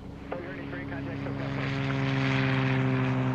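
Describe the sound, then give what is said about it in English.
A propeller airplane takes off from a runway, its engine a steady, droning hum with strong tonal harmonics that grows gradually louder and fuller as it powers up. “Runway 34 left, clear for takeoff. Clear for takeoff, runway 34 left, 182 entry.”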